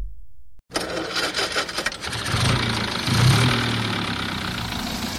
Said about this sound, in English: He's driving off.